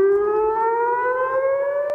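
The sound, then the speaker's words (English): Air raid sirens wail over Jerusalem in a loud, steady, sustained tone whose pitch creeps slowly upward, with no voices. “Air raid sirens echo into the skies of Jerusalem.”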